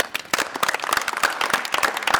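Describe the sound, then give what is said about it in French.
Audience applause at a school dance-project gathering: many quick, sharp claps overlap into dense, lively clapping that keeps a steady level throughout. “Je vous propose qu'on applaudisse ceux qui ne peuvent pas rester avec nous.”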